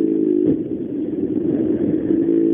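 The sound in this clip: Engine drone from a rally car that keeps driving on a rear-left puncture: a continuous mid-pitched rumble with small surges, steady and fairly loud throughout, with no talk over it.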